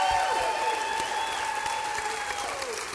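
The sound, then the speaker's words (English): A live theater audience applauds at the Paramount Theater in Austin, Texas, during the Texas Tribune Ideas Festival. The dense, even clapping holds at a steady loudness for the whole stretch. “I've got a live audience here at the Paramount Theater. Let's hear it.”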